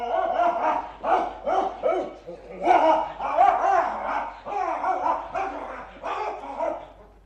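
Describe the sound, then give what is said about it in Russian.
A dog barks in quick, loud runs of repeated barks over about seven seconds, with a steady low hum beneath. “Ну, погоди, проклятый пес.”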